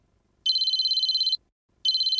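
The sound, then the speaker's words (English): A cell phone ringtone sounds in a gym: two bursts of bright, high, rapidly pulsing trill. The first lasts about a second, followed by a short silence before the second begins, with no voices. “Suddenly, a cell phone rang.”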